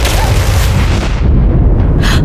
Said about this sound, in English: What was that? An explosion.